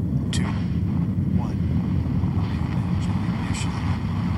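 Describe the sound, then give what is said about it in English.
A deep, steady roar from a Falcon 9 rocket lifting off with the Jason 3 ocean satellite on a foggy day. The low rumble stays dense and unbroken through the whole clip. “lift off of the Falcon 9 rocket with Jason 3”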